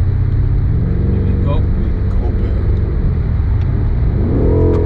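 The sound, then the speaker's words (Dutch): Deep rumble of a powerful 625-horsepower car with an automatic gearbox, a steady low engine drone throughout that swells into a rising rev near the end. “Hoeveel pk heeft dit, hè? 6,25. Ja. Ja, dit is een monster.”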